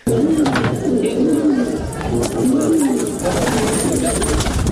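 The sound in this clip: Pigeons cooing, birds kept by pigeon breeders in Kunduz, Afghanistan, giving several low, rolling coo phrases over a dense, noisy background.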